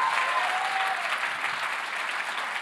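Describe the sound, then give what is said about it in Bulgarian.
An audience applauding during a church service: steady, dense clapping that holds at an even level throughout. “О, ако ръкопляскаш, ръкопляскай, като че наистина вярваш.”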